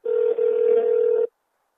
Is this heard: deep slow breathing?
no